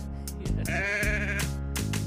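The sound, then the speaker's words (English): Sheep bleating in a video game: a few wavering, nasal bleats in close succession, fairly loud and alone, with brief clicks between them. “Just a lonely man. Just lonely. With my sheep. We are sheep.”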